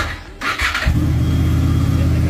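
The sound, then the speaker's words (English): A motorcycle engine is started with a thumb starter button: a brief cranking whir catches, then settles into a steady, low, chugging idle. “He's got the ignition on. Green light means it's in neutral. Bring on both the handlebars. Put your thumb on here and it starts.”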